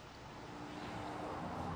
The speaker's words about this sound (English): Wasn't that an MGA 1500? Ah, you know your cars. I like them. I love the sound they make.